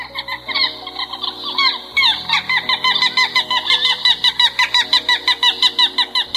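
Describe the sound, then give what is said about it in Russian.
Little gull calls: a long series of sharp, bright, rapidly repeated notes in a steady, even rhythm, loud and without voices. “А это голос малой чайки.”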